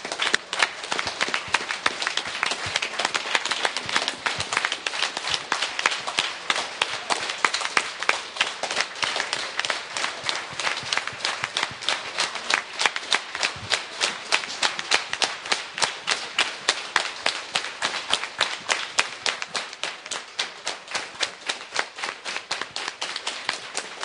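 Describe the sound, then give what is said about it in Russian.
Group applause as participants in a circle session clap for one another, a long run of steady, evenly spaced clapping that keeps a regular beat throughout with no talk. “Друзья, давайте похлопаем друг другу.”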